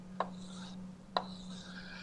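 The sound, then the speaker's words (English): Drawing a picture by hand during a mathematics lecture: two sharp taps about a second apart, each followed by a faint scraping stroke, over a steady low hum. “So what I would do is, so let me draw the picture again.”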